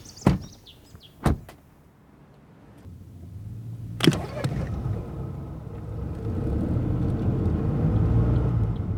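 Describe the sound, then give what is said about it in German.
A car drives back along forest tracks toward Baruth. A few sharp clicks and knocks come first, then a low engine and road rumble builds steadily and grows louder to the end. “Wir fahren über Waldwege zurück nach Baruth.”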